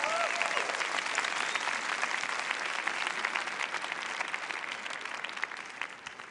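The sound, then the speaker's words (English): Audience applause welcoming Professor Michio Kaku into a debate, a dense, steady roar of many clapping hands that fills the whole stretch and eases slightly near the end. “Tiene usted, profesor Michio Kaku, 200 seconds to make your point. Welcome, please, to the ring. Un aplauso al profesor Michio Kaku.”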